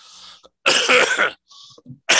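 A person coughs in a few harsh, loud bursts with short pauses between them. One long, rasping cough sits in the middle, with smaller throaty hacks around it, and there is no speech.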